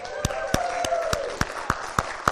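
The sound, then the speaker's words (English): An audience claps in praise: eight sharp, evenly spaced hand claps in a steady beat, faint overall. “I just feel like maybe we all give him a little praise offering this morning. A little clapping, a little hollering. Can we do that?”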